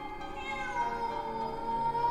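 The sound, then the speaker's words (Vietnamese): A cat sitting and staring toward a house meows in a long, drawn-out, wavering cry with rich harmonics. It is fairly faint and heard alone, with no talk. “Bây giờ thì nó không còn kêu gào kinh dị như lúc nãy, mà nó cứ meo meo như muốn nói điều gì.”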